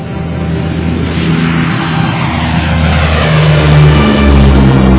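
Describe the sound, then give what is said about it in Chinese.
Propeller fighter planes of a Chinese air group fly into battle against Japanese Type 96 fighters, producing a loud, continuous engine roar and drone that swells slightly toward the end. “第四大队的空中勇士们驾驶战机，以一个军人对国家和民族安危的责任感。勇敢地冲入敌阵。”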